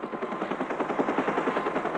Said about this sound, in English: Whirling chopper blades, rumbling tanks